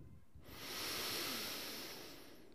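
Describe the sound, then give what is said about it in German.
A single slow, deep breath, a soft airy hiss that swells over about a second and then gradually tapers away, faint and alone without talk. “Und das ist oft einfach erstmal ein tiefer Atemzug.”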